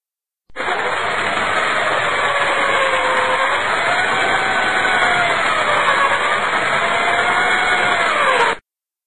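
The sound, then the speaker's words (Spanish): Steady, loud whine of an electric drill measured at 96 decibels, running continuously for about eight seconds with a slightly wavering pitch, heard alone before stopping abruptly. “96 decibeles. Un taladro.”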